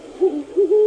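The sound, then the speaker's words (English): A great horned owl calls in a few deep, soft hoots in a rhythmic sequence, the last held slightly longer. The call is clear and alone against a quiet background. “That's the call of the great horned owl.”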